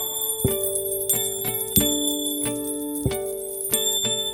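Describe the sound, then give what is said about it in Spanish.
Small bells ring in a series of bright, clear strikes at a fairly regular pace. Each strike leaves a sustained ringing tone that overlaps the next, with softer taps between the louder hits. “los enanos van entrando, campanitas van sonando.”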